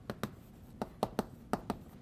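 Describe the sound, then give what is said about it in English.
Writing strokes as a model is written down during a lecture on parasites and virulence: seven sharp, clicking taps in uneven clusters, separated by short quiet pauses. “So there's this X dot, and things look very similar.”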